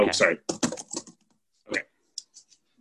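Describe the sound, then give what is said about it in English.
Computer keyboard typing while an email is written, a few sharp keystroke clicks following a short stretch of talk, then fading to silence. “Okay, sorry. I was just writing an email to De'Aaron Fox's representatives about that request.”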